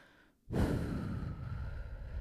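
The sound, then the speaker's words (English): A deep breath begins abruptly after a moment of near silence, a long, steady breathy rush that holds until the end. “Let's take a breath. Actually, I'm going to take a breath now.”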